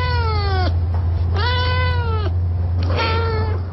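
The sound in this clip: Félicette, the first cat in space, meows three times in an old recording over a steady low hum. The drawn-out cries are clear and fairly loud, and the first one falls in pitch.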